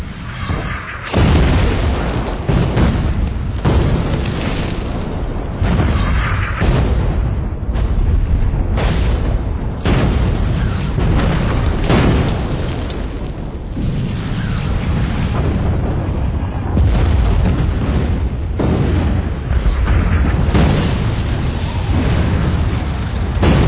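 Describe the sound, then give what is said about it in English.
An artillery barrage: many heavy, booming explosions that keep coming without a break, loud and rumbling throughout. “Second barrage, I wasn't laughing anymore.”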